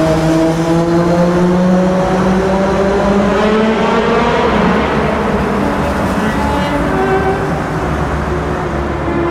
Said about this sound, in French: Écoutez cette moto qui passe.